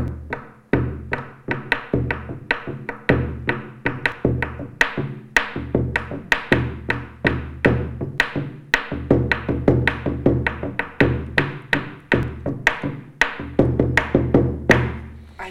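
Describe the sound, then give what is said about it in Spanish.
A bombo bass drum from a marimba ensemble, with one head of peccary hide and one of deer hide, beats out many deep, resonant thumps in a steady repeating rhythm, some strokes accented more heavily than others, played alone without voices. “el bombo suena así.”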